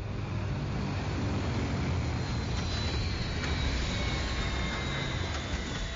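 A spaceship roars as it enters the atmosphere to land, a steady, broad rumbling whoosh with faint high whining tones that slowly drift downward throughout.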